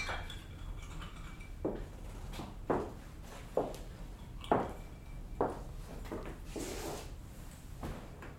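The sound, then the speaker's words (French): Ice cubes dropped into a glass of whisky: a series of separate knocking clinks spaced roughly a second apart, over a low steady background, with no talking. “Il n'y a pas de ginger ale pour mettre dans le whisky ? Je suis votre maquereau. D'accord. Je me contenterai d'y mettre des glaçons.”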